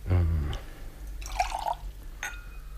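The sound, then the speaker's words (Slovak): A drink is poured, with faint liquid splashes and a light glassy trickle against a low steady hum, brief and soft. “Nalej nám ešte.”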